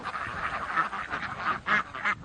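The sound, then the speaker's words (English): Ducks quacking as they forage between vineyard rows, many overlapping nasal calls forming a steady chatter, with a few louder bursts of quacking toward the end. “The ducks typically patrol the vineyards between 9 in the morning and midday.”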